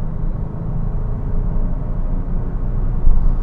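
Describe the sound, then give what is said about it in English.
A car on a test drive accelerates through an intersection, producing a loud, continuous low rumble of engine and road noise that holds steady and swells briefly near the end. No one speaks. “I just accelerate through a red light there.”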